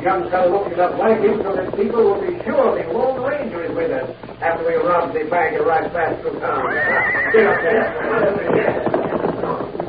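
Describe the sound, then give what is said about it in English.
A horse whinnies shrilly among several riders' horses passing along a trail in a gully, the neigh standing out loudly over a dense background while people talk. “one of the horses whinnied as they passed.”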